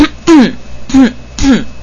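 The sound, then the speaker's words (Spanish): Throat clearing and coughing come as three short, loud, voiced bursts in quick succession, each with a slightly falling tone and brief pauses between. “Pero quiero toser.”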